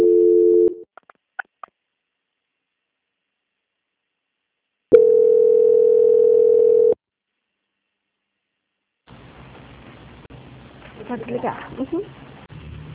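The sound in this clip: Telephone line tones play during a bank call transfer: a short tone, a few faint clicks, then a steady two-second tone, followed by silence and then faint line noise with a low voice.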